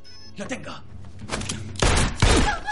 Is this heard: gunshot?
yes

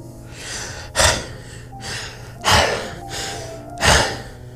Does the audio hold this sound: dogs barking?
no

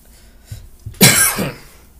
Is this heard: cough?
yes

